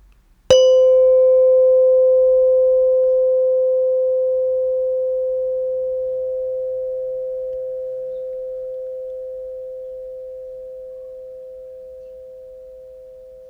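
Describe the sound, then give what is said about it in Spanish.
A meditation bell gives a single bright strike, then a pure, steady ringing tone that fades very slowly over more than ten seconds, heard alone in silence. “Ahora volverás a escuchar la campana. Una vez que dejes de escucharla, lleva tus manos al regazo o a las rodillas.”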